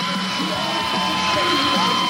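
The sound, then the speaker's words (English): Crowd cheering at a 1990 tag-team wrestling match in Beaumont, Texas, with about 3,500 fans: a loud, continuous roar of voices that holds steady throughout. “Those girls are really cheering for me.”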